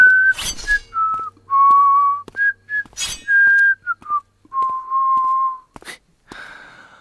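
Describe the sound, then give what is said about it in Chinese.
A man whistles a casual, leisurely tune of sustained notes at shifting pitches, clear and fairly loud, with quick audible breaths between phrases. “苏昌和悠悠然地吹着口哨，旋转着手中匕首来到他的身边。”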